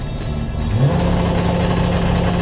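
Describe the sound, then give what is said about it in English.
A car engine accelerates on a race track: a loud, steady mid-pitched roar whose pitch briefly climbs near the start and then holds at a high, even drone. “And we're off! Massive skids around the first corner, it's amazing! Oh my god, it's so fast!”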